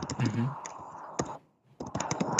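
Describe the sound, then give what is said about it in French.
A message being typed into a chat on a computer keyboard: many sharp key clicks in quick bursts, a short pause midway, then rapid typing again, with a voice speaking over the opening. “Je t'écris ça dans le chat.”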